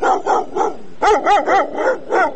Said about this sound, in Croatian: Već godinama napušteni psi žive na ulicama Sarajeva, lutaju u čoporima, često gladni i zbog toga agresivni, svakodnevno napadaju ljude.